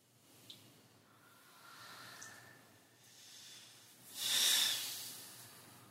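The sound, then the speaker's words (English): Gentle breathing into the throat, very faint and slow: a few soft airy breaths, then a longer, louder hissing breath near the end, heard alone. “We're going to gently breathe into the throat.”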